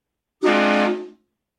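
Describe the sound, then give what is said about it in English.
A train horn sound effect sounds one loud, sustained, brassy blast at a steady pitch, lasting under a second before tapering off into silence. “Hit the train horn for a second, please.”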